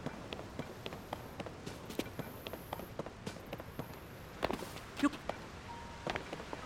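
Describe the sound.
Footsteps descending stairs in the video game Zelda: Tears of the Kingdom: many quick, light, evenly spaced taps, faint and steady throughout.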